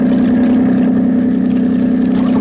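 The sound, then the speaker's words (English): A big motorboat's engine drones steadily on the water, a loud low hum with no break. “There's a big motorboat coming this way. She'll miss us. Watch out for a wash. It'll rock us a bit.”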